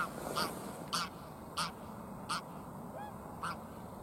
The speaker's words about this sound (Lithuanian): Pilkosios žąsys.